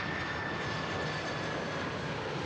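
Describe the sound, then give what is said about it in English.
Air Force One, a jet aircraft, approaches the airport at Yuma with a steady, broad engine roar and a thin high whine held throughout. “Cheers, flags, and bright red hats were common among the hundreds of people waiting along a stretch of road just outside Yuma's airport as Air Force One approached.”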